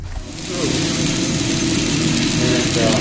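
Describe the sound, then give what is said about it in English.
Hot, freshly roasted coffee beans spill from a roaster into its cooling tray. A loud, dense rushing rattle swells in within the first half second and holds steady over a low mechanical hum. “that's the sound of fresh, hot roasted coffee beans spilling into a cooling tray in front of the roaster.”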